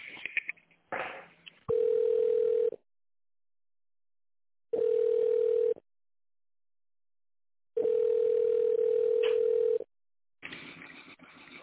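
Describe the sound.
A telephone ringback tone plays while a call to an office line connects: three steady mid-pitched tones separated by silence, the last one longer, with crackly line noise before the first and after the last.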